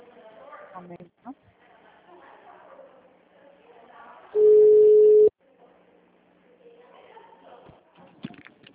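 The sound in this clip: A telephone line dropping mid-call on a business's HR line, with a single steady busy tone held for about a second. Voices speaking Portuguese come before and after it.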